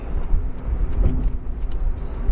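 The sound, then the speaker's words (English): A car driving down a freeway makes a steady low road rumble, a continuous drone with no distinct events standing out. “So I'm driving at the moment down the freeway”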